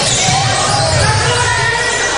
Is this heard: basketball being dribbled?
yes